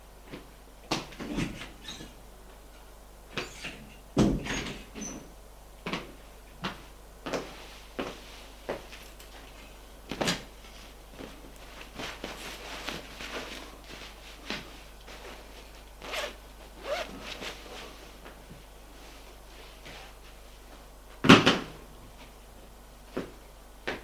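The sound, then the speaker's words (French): Faint rustling, clicks and a zipper as a person leaves the bathroom and gets dressed in a bedroom. Many sparse, sharp handling sounds are spread across a quiet background, with one louder click near the end. “Et sort de la salle de bain pour aller dans sa chambre s'habiller.”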